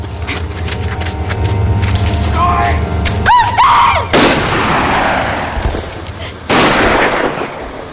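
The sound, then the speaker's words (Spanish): Gunshots fired from among trees in a forest, set in a Second World War drama: a few loud, sharp blasts that cut abruptly through a dense, noisy background. “El pequeño cae abatido por unos disparos provenientes de unos árboles.”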